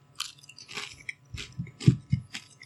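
Someone bites into and chews a crunchy onion gratin soup flavored potato snack, making many crisp, uneven crunches in short bursts, loud and close, with no talk.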